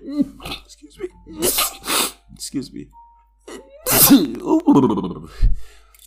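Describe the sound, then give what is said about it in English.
Sneezes from a person who is trying to stay calm, a few sharp, fairly loud bursts broken up by gasping breaths and short vocal sounds. “there should be one more sneeze. All right, shit, there's one more.”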